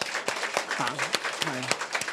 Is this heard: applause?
yes